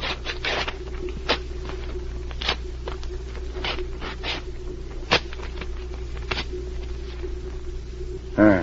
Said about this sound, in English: Now, let's go over to this table, watch the papers as I tear them. We don't want to lose any of the pieces.